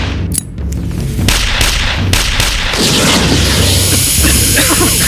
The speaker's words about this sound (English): Keep shooting! What? Just keep shooting!